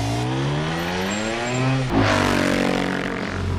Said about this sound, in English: Time to give it full throttle and dust him!